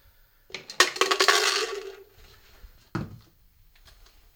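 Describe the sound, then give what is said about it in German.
Protein powder and dietary supplements, including creatine and collagen, being mixed: a burst of rattling, clinking pours, followed by a sharp knock and a few soft clicks. “während er seinen fast täglichen Mix aus Protein- und Nahrungsergänzungsmitteln mischt”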